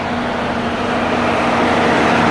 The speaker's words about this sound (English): Chemical truck. A rumbling truck brings her back to the present